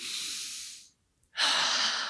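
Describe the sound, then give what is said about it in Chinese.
Heavy, forceful breathing: a long, loud rush of breath, a brief silence, then another strong, hissing exhale. Both are airy and carry no voice. “我每次到这边的时候，都呼吸得很用力，吐气的也很用力。”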